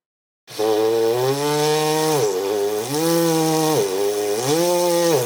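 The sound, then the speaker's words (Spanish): A buzzy, raspy brass note played with a mouthpiece visualizer ring pressed hard against the lips, held loud and steady in three long stretches, its pitch briefly sagging twice between them. “Lo único que estoy haciendo es apretar excesivamente el aro sobre mis labios. Y como veis, el sonido cambia.”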